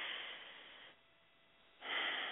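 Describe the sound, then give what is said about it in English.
A deep breath taken in a guided relaxation exercise: two soft, breathy rushes of air, each lasting about a second, with a short quiet pause between them and no talk. “I invite you to take a breath with me.”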